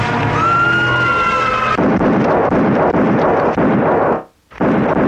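A target being shot down in a computer game: a whistling electronic tone gives way to a loud, sustained, crackling explosion-like roar that cuts out briefly, then resumes.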